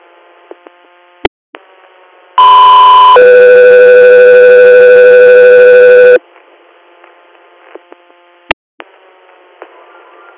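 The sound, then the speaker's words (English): Dispatch alert tones on an emergency medical radio channel: a short, loud steady tone steps straight into a longer, lower tone lasting a few seconds. Radio hiss and sharp squelch clicks surround it. “standby for Tones.”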